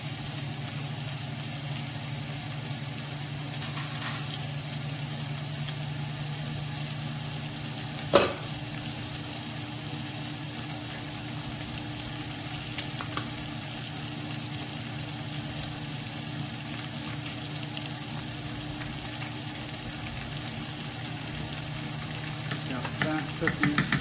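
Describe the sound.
Catfish frying in a pan: a steady, even sizzle and hiss that holds at constant loudness throughout, with one brief sharp clatter partway through.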